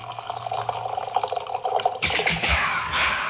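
Wine pours from a bag-in-box tap, first a patter of small drips and trickles, then a fuller gurgling stream of liquid that runs steadily to the end, with no voices.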